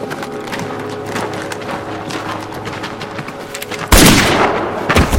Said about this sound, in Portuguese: O jogador atira na própria cabeça.